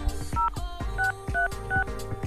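Telephone number being dialed on a keypad: four short, clean touch-tone beeps sound at an even, unhurried pace, alongside a pattern of soft clicks.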